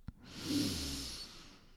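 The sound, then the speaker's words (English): A slow breath through the nose during a guided breathing exercise: a soft, airy rush that swells and then eases over about a second and a half, after a brief click. No one speaks. “Breathe in through your nose and breathe out through your nose. Breathe in through your nose.”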